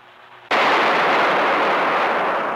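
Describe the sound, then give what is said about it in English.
Man-made lightning stroke fired at a GE high-voltage lab in 1952: one abrupt, deafening crack that bursts out of a low hum and holds as a loud, harsh, sustained roar, easing only slightly toward the end. “Just listen to this 1952 GE promotional video. They're almost up to full voltage. Hold your ears.”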